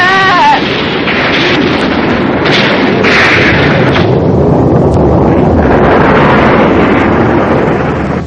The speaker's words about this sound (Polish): Co się stało? To był jakiś wybuch.